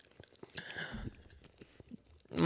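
Gum that tastes like dirt being chewed: faint, irregular wet smacks and squelching mouth sounds, with a louder burst at the very end.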